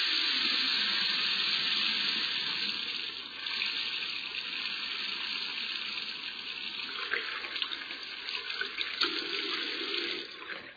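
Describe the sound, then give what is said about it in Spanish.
Water runs from a tap as hands are washed: a steady, fairly quiet hiss of flowing water that carries on throughout, with some uneven splashing toward the end and no talking. “Permítanme un momento, nada más termino de lavar mis garritas y las invito a almorzar.”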